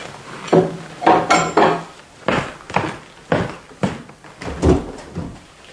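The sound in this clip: A door being opened: a run of wooden clunks, knocks and rattling latch clicks at an uneven pace, fairly loud, with no voices.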